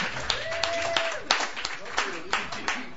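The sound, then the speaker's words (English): Scattered clapping from an open mic audience as the performers leave, with sharp claps repeating in a loose rhythm under a person talking. “Let's give them another hand.”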